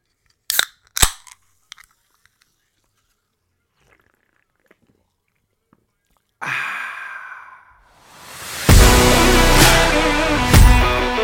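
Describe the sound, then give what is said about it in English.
Opening of an ice-cold Pepsi Cola can: a few sharp metallic clicks, then a pause and a sudden hissing burst that swells into a loud, sustained fizzing rush. “let me crack open this delicious, thirst-quenching, ice-cold Pepsi Cola.”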